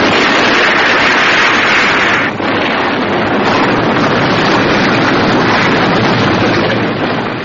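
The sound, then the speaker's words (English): A test aircraft exploding into a huge ball of flame gives a loud, dense roar that fills the whole stretch. The noise holds steady apart from a brief dip early on. “Gordon in Thunderbird 4 speeds away from the burning fire flash, and not a moment too soon, for it explodes into a huge ball of flame.”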